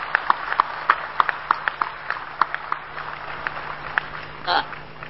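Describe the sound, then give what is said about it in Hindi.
Audience hand claps at a spiritual gathering, heard as sparse, sharp single claps in a steady series of a few per second rather than a dense ovation, over a low steady hum. “आपकी ताली का तो बहुत आवाज अच्छा आ रहा है।”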